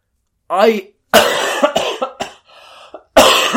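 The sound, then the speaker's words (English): A person who is ill coughs a few times, with harsh bursts of sound among throaty vocal noises in a short, broken sequence. “keep that cough in, because I am ill.”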